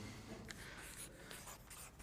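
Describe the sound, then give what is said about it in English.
Faint scratching of a marker or chalk writing neatly on a board: a steady run of light, dry strokes with small taps, soft and without voices. “I'll write this neatly.”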